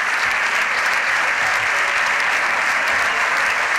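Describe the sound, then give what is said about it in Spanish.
Applause from the governing party's benches in the Spanish Congress of Deputies, a loud, dense and unbroken roar of many hands clapping at a steady level throughout. “Entre aplausos de su bancada.”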